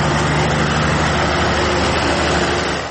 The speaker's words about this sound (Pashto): د ګریش د برق له فابریکې په 200 متره کې د یخي یوه وړه کارخانه د ډیزلي ماشینونو په برېښنا چلیږي.